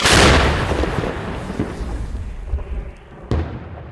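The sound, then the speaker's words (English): Artillery fire from a donated Paladin self-propelled howitzer firing American rounds: a loud, deep boom that decays into a long rumble, followed near the end by a second sharp report. “Some units had enough shells, they said. These firing American rounds in a donated Paladin.”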